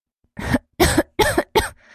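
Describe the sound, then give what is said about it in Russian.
A man coughing four times in quick succession, each cough a loud, harsh, voiced burst with short gaps between. “Кашляет.”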